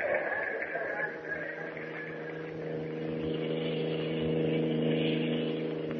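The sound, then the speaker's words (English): Steady drone of a car engine driving along a road, a continuous mid-pitched hum with a slight swell toward the end and no voices. “I think we're on the wrong road, Mr. White. The last sign I saw said 20 miles to the naval base, and we've been driving almost an hour since we passed it.”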